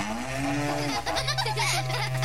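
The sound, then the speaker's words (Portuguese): A berrante cattle horn is blown in long, low, moo-like tones. The first note slides upward and then holds. After a short break near the middle, a second sustained note follows, carrying a wavering upper edge. “Chega de berrante, pelo amor de Deus. É muito berrante.”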